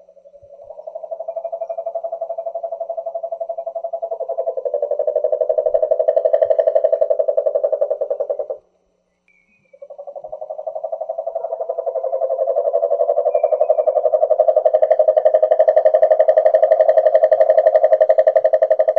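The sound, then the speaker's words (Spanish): Cane toad (Rhinella marina) calling: a long, steady, low-pitched pulsed trill lasting about eight seconds, then a short silence and a second, longer trill that grows slightly louder. “Este es el canto de un ser conocido como Rhinella marina.”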